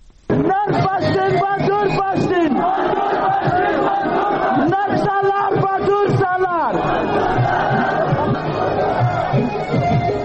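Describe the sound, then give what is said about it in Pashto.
Crowd chanting slogans at a Pashtun Tahafuz Movement rally at Rustam Bazaar in Wana, South Waziristan. Many voices shout together in loud, rhythmic bursts, then merge into a sustained roar. “دا جاغونا د پښتون ژغورنې غورزنګ د هغې جلسې دي چې 13 ورځ په 9 اپریل د سویلي وزیرستان واڼه رستم بازار کښې په میرزا عالم پمپ نه وشوه.”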